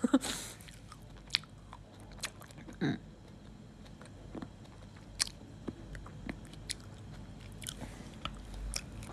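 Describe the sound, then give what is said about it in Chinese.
Someone eating cherries, with many crisp bites and wet chewing clicks at an uneven pace, fairly faint and with no talk. “妈，你在吃啥？在吃 cherry？”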